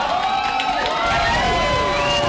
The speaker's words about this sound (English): When they got the news they were looking for, supporters cheered Norman as he came down the steps from a private watch party with his family.